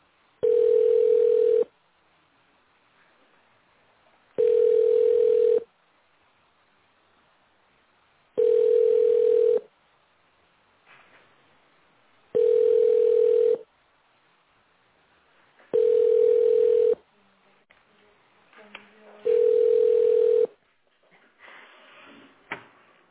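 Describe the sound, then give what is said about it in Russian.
Telephone ringback tone heard while waiting on the line: six steady, mid-pitched tone bursts, each a little over a second long, separated by regular gaps of about three seconds, with faint line noise between them. “Зачем дозваниваться? Оставайтесь на линии.”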